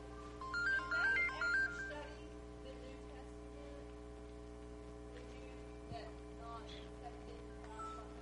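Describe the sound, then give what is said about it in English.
A mobile phone ringtone plays a short melodic electronic phrase in three quick bursts near the start, fairly faint over a low steady hum, then stops. “I forgot to turn my phone down.”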